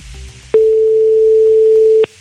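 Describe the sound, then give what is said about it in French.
A telephone call is placed and goes unanswered: after a faint background, a single steady ringing tone sounds for about one and a half seconds, then cuts off. “C'est parti, on lance l'appel, s'il vous plaît, là-bas, du côté de Bernard Sabat.”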